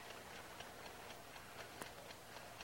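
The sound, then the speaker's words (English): An alarm clock ticks faintly and alone, an even, steady rhythm of soft clicks over a low background hiss. “He raises the alarm clock to strike, then tries to shut it off.”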